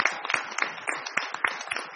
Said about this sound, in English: Okay, let's get another round of applause to all of our students and their teachers.